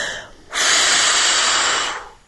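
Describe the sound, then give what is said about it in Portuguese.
A voice imitating someone blowing on hot soup: one long, loud, airy exhalation lasting about one and a half seconds, steady throughout, preceded by a softer breath and trailing off at the end. “A Maria encheu o peito de ar e soprou.”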